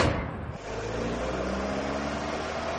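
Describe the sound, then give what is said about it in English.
Car engine as a driver pulls away with a passenger aboard: a steady, low, humming rumble with a brief dip near the start, continuing evenly with no voices. “Drive once around the park and then to police headquarters, Center Street, driver.”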